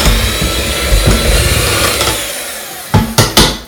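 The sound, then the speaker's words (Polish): An electric mixer runs on low speed through cake batter with freshly added flour, making a steady whirring drone that eases slightly before three short, sharp clattering bursts near the end. “Najpierw na wolnych obrotach, żeby mąka dopiero co wsypana nie fruwała nam po całej kuchni. Kiedy już się trochę rozejdzie w cieście, możemy zwiększyć obroty.”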